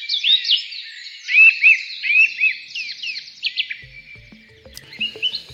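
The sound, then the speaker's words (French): Birdsong made of many quick, high-pitched chirps and whistled notes in rapid runs. It thins out toward the end, where a few faint low knocks can be heard. “Voilà quelques chants d'oiseaux dans cette chronique de Bruno David”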